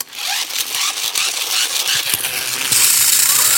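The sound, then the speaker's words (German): A dental drill grinds in a bright, continuous high-pitched whir with faint rattling ticks. About two-thirds of the way through it rises into a sharper, louder whine, with no talking. “Dann lieber Bohrgeräusch. Dann lieber Bohrgeräusch. Das hört sich ungefähr so an.”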